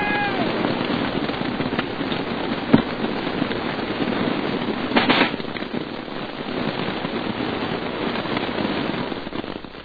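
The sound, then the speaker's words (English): Fire crackles and hisses in a back room, a radio play sound effect. The steady, dense crackling is spiked by a sharper pop and a brief louder flare, then fades slightly toward the end. “What fire? The fire going on in the back room. Help!”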